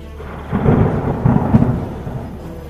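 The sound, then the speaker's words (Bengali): Loud thunder outside: a low, rolling rumble that swells twice and then slowly fades back to a steady grumble. “বাইরে জোরে জোরে বজ্রপাত”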